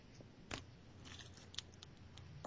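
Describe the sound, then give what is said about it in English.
An exacto knife cutting through rigid cardboard: a few faint, sharp scratchy snaps and crackles spaced apart over a low steady background hum. “it's very rigid pieces of cardboard. Now, how far do I go with the exacto knife?”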